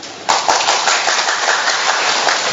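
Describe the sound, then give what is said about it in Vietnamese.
A church audience claps together after a brief quiet start. The applause is loud, dense and sustained to the end. “Anh chị em vỗ tay to lên giùm tôi cái coi nào.”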